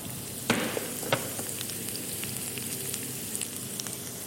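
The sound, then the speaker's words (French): Cumin and minced garlic sizzle in hot oil in a hot pan, a steady, fairly quiet frying hiss broken by a few sharp pops and crackles. “on va faire torréfier ici, dans l'huile chaude, le cumin. Et on va rajouter après, ici, de l'ail émincé.”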